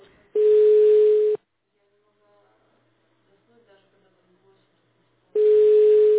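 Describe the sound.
Ringback tone of an unanswered phone call: two loud, steady, low-pitched beeps, each lasting about a second and spaced roughly four seconds apart, with faint murmuring in the gap.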